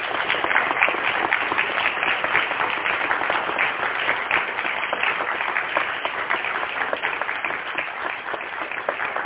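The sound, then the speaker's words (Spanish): Audience applause at an international ufology congress in Argentina, welcoming a guest speaker: dense, steady clapping from many hands that holds at an even level throughout. “Un fuerte aplauso, sí, por favor.”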